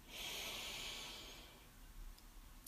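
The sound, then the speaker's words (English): One long, deep inhalation during a guided breathing exercise, a soft, airy hiss that swells for about a second and a half, then fades into near silence. “Take a deep breath in.”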